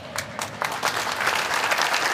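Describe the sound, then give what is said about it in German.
Studio audience applause on a German football talk show, a dense wash of clapping that swells early on and then holds steady and full until the end. “Ja, dieser Applaus hier von unserem Publikum geht auch Richtung Bochumer Fans, weil das war wirklich außergewöhnlich.”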